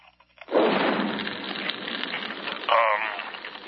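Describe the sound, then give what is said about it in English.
Drapes catching fire as a radio ad sound effect: a sudden whoosh of flame flares up, then settles into a sustained crackling roar, with a second loud surge near the end. “Now the drapes are on fire.”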